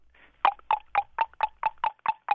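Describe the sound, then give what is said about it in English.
A voice imitates the alarming noise a '97 Lumina's brakes make when applied: nine evenly spaced, fairly loud, nasal squawks in a steady rhythm, after a faint lead-in. “I have a 97 Lumina, which I bought used from a family relative. A relative. Yes. Here's my question. The brakes appear to be functioning fine. However, they make a kind of an alarming noise when you apply them. Uh-huh. It sounds a little like this.”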